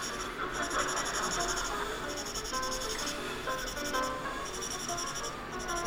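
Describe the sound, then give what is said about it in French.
A pen scratches steadily across paper, drawing a black and white checkerboard pattern for a cape. The rubbing strokes are dense and continuous, with no pauses and no voices. “à damier noir et blanc, comme ça. Il n'y aura pas de soucis, ça ne choquera personne, on n'aura pas à discuter. C'est juste plus long à dessiner, il ne faut pas se tromper.”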